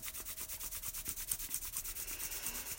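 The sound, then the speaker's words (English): Hands rubbing together, quick and regular back-and-forth strokes with a soft, hissing friction texture, many even pulses at a steady rhythm, quiet and alone. “start rubbing your hands together”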